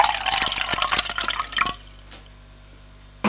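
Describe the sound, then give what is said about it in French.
Water is poured into a glass bottle, a busy splashing, gurgling fill with many quick drips for about a second and a half. Then it stops and goes nearly quiet, with one short splash near the end. “va prendre une bouteille d'eau en verre pour le remplacer. Elle le remplit d'eau”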